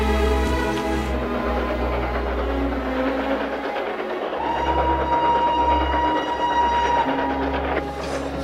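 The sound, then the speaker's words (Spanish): A freight train pulls away across a snowy field, a steady, heavy rumble of wagons rolling on the rails at an even, unbroken level throughout. “El tren de los hombres parte y atraviesa un campo nevado.”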